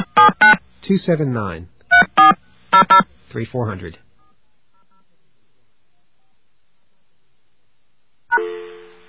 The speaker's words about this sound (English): AT&T, please dial the number you are calling, or 0 for an operator, now. Okay, let's do that.